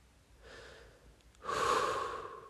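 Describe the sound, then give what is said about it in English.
A person breathing slowly and deliberately: a soft, quiet breath comes first, then a longer, fuller and louder one follows. No one speaks. “I breathe. This is as it is. Let it be as it is.”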